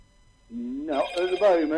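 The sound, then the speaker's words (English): A phone rings with a bright, tonal ringtone that shifts in pitch. It starts after a quiet half second and sounds steadily for over a second. “I'm trying to switch this phone off. Just a second. Let me switch it off.”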